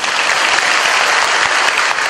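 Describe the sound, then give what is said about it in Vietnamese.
Dense, steady applause from an audience at a Buddhist dharma talk, with many hands clapping together in an even, loud wash of sound that holds its level throughout. “Cho một tràng pháo tay.”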